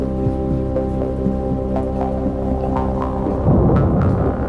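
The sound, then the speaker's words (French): Heavy rainstorm pouring down over a town, with a low rumble of distant thunder rolling through a steady wash of rain and swelling louder near the end. “Au loin, on entend le bruit inquiétant du tonnerre.”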